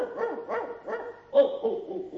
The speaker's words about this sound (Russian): собак ты не уймешь от лаю, лишь пуще всю раздразнишь стаю.